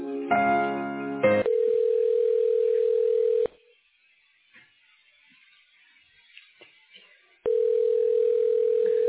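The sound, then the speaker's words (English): A telephone dial tone follows a call being hung up: a brief jumble of mixed tones, then a steady mid-pitched continuous tone that cuts off, a stretch of near silence, and the same tone returning. “Did I hang up on you? I'm sorry. I didn't mean to hang up on you.”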